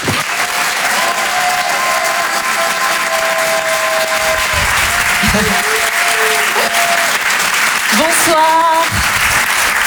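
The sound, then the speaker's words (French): An audience applauds and cheers as a comedian is welcomed onstage: loud, dense clapping continues without a break, and sharp whistles and shouts rise above it at several moments. “On va l'encourager et faire un maximum de bruit, s'il vous plaît, pour Hélène Sillot.”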